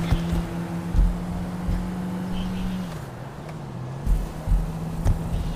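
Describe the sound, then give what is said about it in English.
Car engine in a video game as the player hits the gas: a low, steady droning tone that drops in pitch about halfway, then holds, with a few dull thumps scattered through it. “Going so fast, so if I don't crash, I'm just going to hit the gas.”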